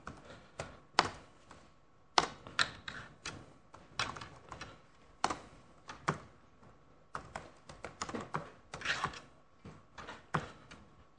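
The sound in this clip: Program code is typed on a computer keyboard: faint, irregular clusters of many sharp key clicks separated by short pauses, with no voices.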